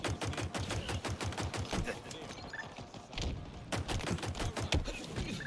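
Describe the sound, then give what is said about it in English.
Pistol gunfire in a Halo first-person shooter video game: many sharp, punchy shots fired in rapid, fairly regular succession, loud and dense throughout. “The pistol's got a good beefiness to it, which I like.”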